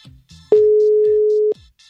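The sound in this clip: An outgoing voice call from a messaging app gives a single steady mid-pitched ringing tone lasting about one second, clean and loud, framed by faint brief sounds just before and after.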